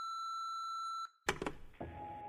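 Voicemail message beep: one steady, high-pitched electronic tone lasting about a second, followed by a few clicks and a softer, lower tone.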